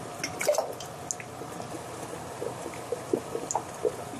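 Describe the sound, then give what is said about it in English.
Liquid is ladled into canning jars, making soft pouring and trickling sounds with scattered drips and small splashes. The sounds are fairly quiet and irregular, with no voices. “I'm just going to ladle them in.”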